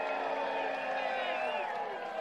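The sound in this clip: Large crowd at a political rally, a dense, steady swell of many overlapping voices with sustained, chant-like tones running through it, loud and continuous from start to finish without any break.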